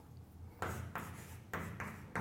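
Writing strokes on a board during a physics lecture on vector fields. A few scratchy, fairly loud bursts come at irregular intervals, each a short rasping sweep over a faint background.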